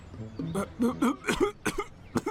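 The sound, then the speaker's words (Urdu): A man coughs in a few harsh, rough bursts, the coughs carrying a strained, voiced quality and ending with short, sharp hacks. “کھانس رہے ہیں آپ؟”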